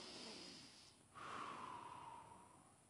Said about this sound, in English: all right, that was a breath. And that's very important to me.